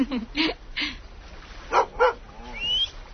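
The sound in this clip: A dog barks in short, sharp yips, several bursts in two quick groups, followed by a drawn-out whining whimper at the end.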